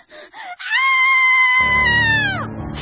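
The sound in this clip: A woman screams in a long, sustained, high-pitched cry that holds steady, then drops in pitch as it trails off. A few short sounds come before it.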